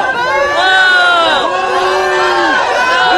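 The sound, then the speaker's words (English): A large crowd boos and shouts at a racial-justice protest event, with many overlapping voices forming a loud, continuous roar of drawn-out, wavering jeers. “What you're hearing is a lot of booing because a white woman at a Black Lives Matter event that was held said all lives matter.”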